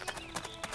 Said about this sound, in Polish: a teraz pójdziemy sobie naprzód.